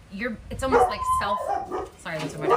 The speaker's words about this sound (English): Self-induced, as my dogs bark. Sorry about that. I have dogs. And when I do lives, the winds blow in, people driving by, they like to bark at them.